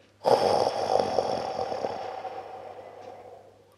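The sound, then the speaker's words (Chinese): A deep breath drawn during a children's guided meditation: one long, airy breath that starts abruptly and fades slowly over about three seconds. “深深的吸气，再慢慢的吐气出去。”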